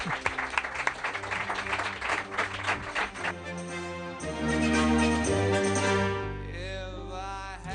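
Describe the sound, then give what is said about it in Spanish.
Applause for panelists on a talk show, with a burst of dense clapping that fades into a steadier wash of sound. “Un aplauso, chicos, venga. Un aplauso a nuestros contertulios.”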